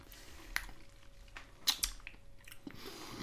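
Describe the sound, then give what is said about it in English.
Several people chewing sweets: moist, squishy mastication with a few sharp clicks and crunchy bites that stand out over low, steady jaw noise. “Right, and if you would please place these sweets in your mouth. Right. I know it doesn't work great as a podcast. No. Right, on three. One, two, three.”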